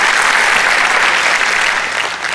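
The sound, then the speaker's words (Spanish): Loud, dense applause from a church audience, a sustained wash of clapping that holds steady and tapers slightly at the end. “Un aplauso a Dios, que Él se lo merece.”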